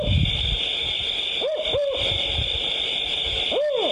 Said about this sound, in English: First, here's the sound of the Canadian owl.